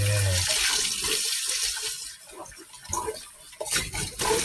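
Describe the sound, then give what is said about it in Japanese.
Running kitchen tap water while a lunchbox is washed in the sink: a steady rushing stream broken by uneven splashing as the water strikes and spills off the box. “今、お弁当を洗っております”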